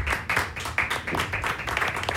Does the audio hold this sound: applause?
yes